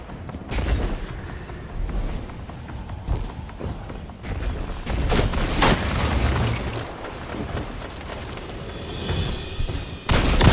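Shotgun blasts in the video game Destiny 2 come as a few heavy, booming shots over a bed of rumbling in-game effects, with one sharp blast near the end.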